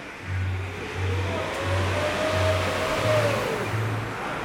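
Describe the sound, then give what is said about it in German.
A car driving on the road to Mitrovica in Kosovo, a steady engine hum with a low, rhythmic rumble pulsing beneath it, continuous and moderately loud with no voices. “Ich fahre nach Mitrovica, nördlich von Pristina.”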